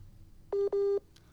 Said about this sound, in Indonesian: Aduh, ini jaringan kita menghubungkan ya.